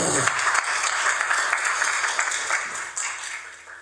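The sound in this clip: Applause from an audience for a speaker who has just shared her story, a dense, steady clapping that stays fairly even for about four seconds.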